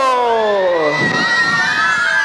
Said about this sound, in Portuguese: Quem tá feliz? Fala assim. Agora dá um grito!